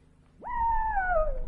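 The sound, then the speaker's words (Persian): A wolf howling: a single tonal howl that swoops up sharply, then holds and slowly sags in pitch, with a clear harmonic above it, fairly loud and alone. “گرگم زوزه کشید و فرار کرد.”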